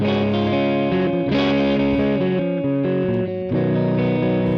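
Electric guitar through a high-power Twin amp model on a Quad Cortex, slightly breaking up, plays a series of sustained chords with a full, somewhat woofy low end. The guitar is loud and alone.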